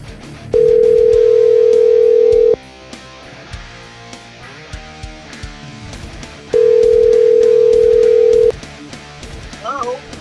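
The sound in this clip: Telephone line tones sound while a call is placed: two long, steady, even tones separated by a pause of several seconds, heard over busy background music.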